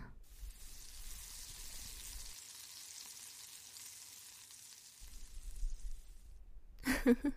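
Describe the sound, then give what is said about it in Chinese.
Meat frying in a pan with a sprinkle of seasoning powder, a steady, soft sizzling hiss that continues throughout, with a few low knocks near the end. “忍耐一下吧。就用锅来煎一下吧，简单撒一点调料粉就好”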